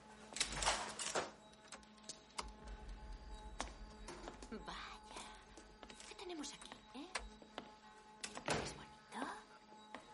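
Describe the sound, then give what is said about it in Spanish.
An apartment door is opened, heard as a few dull thunks and clicks over quiet shuffling and movement, with faint voices in the background. “Él abre la puerta de un apartamento. Todos entran.”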